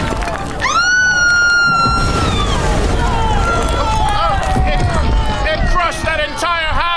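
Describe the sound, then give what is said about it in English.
A huge statue cracks apart and collapses in the wind with a sustained, rumbling crash, while shrill screams and a panicked crowd rise loudly over the din. “It can't take the wind! It's cracking! That awful huge nose is breaking off. Everyone on the ground, look out!”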